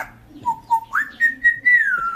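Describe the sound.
A parrot mimicking a pop song in whistle-like tones: a few short, clear sung notes that step up to higher, longer held phrases, with no other voices.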